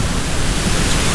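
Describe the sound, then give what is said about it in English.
Radio static from the WayFM station off the air: a loud, steady wash of hiss that stays even throughout, with no breaks or other sounds. “Hear that? That's the sound of WayFM off the air.”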